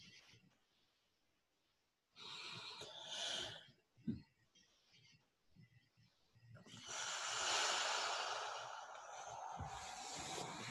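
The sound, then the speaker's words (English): A group of people taking deep breaths during a meditation session: long, breathy rushes of air rise and fade, with a quiet gap between them. “And deep breath, everybody.”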